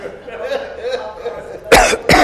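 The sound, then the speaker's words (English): Two sharp, loud coughs in quick succession come after a stretch of a person speaking. “Seem to have a cough.”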